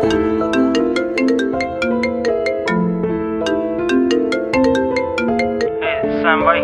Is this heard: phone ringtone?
yes